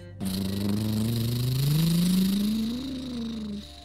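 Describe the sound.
Monster truck engine revving at full throttle while climbing a giant muddy hill: a loud, sustained roar whose pitch rises steadily over about three seconds before easing off.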